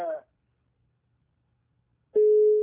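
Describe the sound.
Telephone tone after a caller's line drops on a call-in program: a brief voice fragment, a stretch of silence, then one steady mid-pitched beep.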